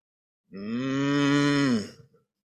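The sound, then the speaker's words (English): A cow moos once in a long, steady, low bellow that lasts about a second and a half, holding its pitch before dropping off at the end, loud and alone. “he's hanging out, and there's the cow.”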